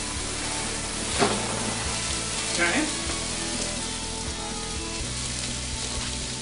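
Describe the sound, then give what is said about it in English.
Food fries in a pan with a steady, crackling sizzle and hiss. Two brief louder touches stand out early, likely from stirring. “All right, this is cooking up good.”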